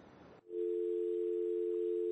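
A telephone dial tone sounds after a caller's line drops, starting after a brief stretch of noise and then holding as a loud, steady, unbroken tone to the end.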